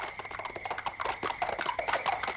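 Horses gallop with a rapid, rhythmic stream of many hoofbeats, moderately loud and continuous throughout.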